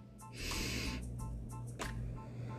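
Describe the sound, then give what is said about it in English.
A deep breath taken during a morning mindfulness moment: a long, loud, airy rush, then a shorter breathy puff, over a steady low drone. “I encourage you to take a deep breath in”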